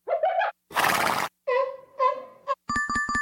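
A stallion neighing in a few short, shrill whinnying bursts broken by brief pauses, with a breathy, noisy blast among them.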